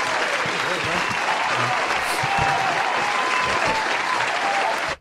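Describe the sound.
A standing ovation applause sound effect: loud, dense clapping with crowd noise that holds steady for about five seconds, then cuts off abruptly.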